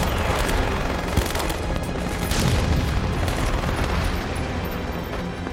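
Gunfire and explosions of a beach landing battle: a dense, unbroken crackle of rifle and machine-gun fire with deep booms mixed in, loud from start to finish.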